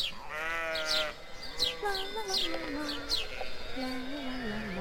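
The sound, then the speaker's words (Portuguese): Sheep bleat repeatedly as a flock grazes in a meadow, several wavering calls in turn. Small birds chirp faintly in the background. “Um dia, durante um dos seus passeios, a princesa passou por um prado onde pastava um rebanho.”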